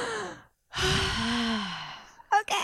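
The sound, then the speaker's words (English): A deep breath taken on request: a long, airy exhale like a sigh, lasting over a second between short bits of speech, with a quick breathy sound near the end. “Can we just take a deep breath real fast?”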